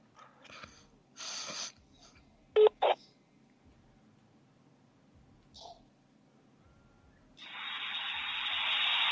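Two short telephone keypad tones sound in quick succession as a number is dialed through a call-bomber, among quiet bursts of noise and followed by a steady hiss.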